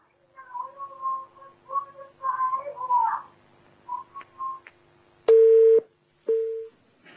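Telephone line tone signalling an incoming call: two short, steady beeps of the same pitch, the first slightly longer. Softer, wavering sounds come before them.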